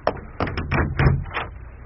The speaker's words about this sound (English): Go to the door, Mrs. Bute. I am writing my sermon. You are married to a clergyman of the Church of England. 'Tis thy bounden duty to open doors.